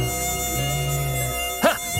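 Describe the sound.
A buzzing fly drones in a steady, even hum that holds its pitch, with a brief louder burst near the end.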